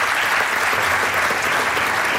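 Applause from a gathered crowd after a prize and trophy presentation, a dense, steady, even wash of many hands clapping that holds at full strength throughout without pausing or fading.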